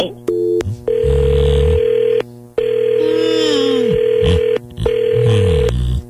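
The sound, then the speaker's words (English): A telephone call being dialed: a series of steady electronic telephone tones and beeps with short gaps between them, plus a warbling tone that slides downward in pitch midway, loud and continuous. “All right, we're going to call Mark now.”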